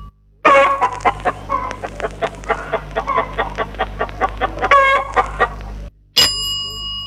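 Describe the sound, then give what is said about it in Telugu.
Rooster calling in a long run of many short, throaty clucks with harmonic tones, fairly loud and steady, then a brief steady electronic-like tone near the end. “ఇది కోడి పుంజుకోత.”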